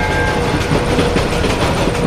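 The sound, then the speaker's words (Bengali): A moving steam train passes with a continuous hissing roar over a deep rumble, loud and steady throughout, with no voices. “সঙ্গে সঙ্গে চলন্ত ট্রেনের ফোঁস ফোঁস হড়হড় শব্দ।”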